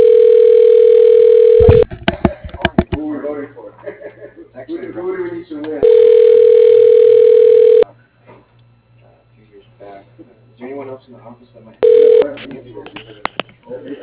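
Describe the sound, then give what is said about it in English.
Telephone dial tone, a loud, steady tone heard in three bursts, two of about two seconds and a short final one. Quick dialing beeps and people talking fill the gaps between them. “Dialing.”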